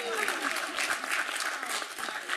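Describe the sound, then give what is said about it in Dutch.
Applause from a council audience in Doetinchem marking a festive day for the long-serving mayor: a dense, steady patter of many hands clapping throughout, with faint voices beneath. “Nou, u hoeft geen applaus te doen”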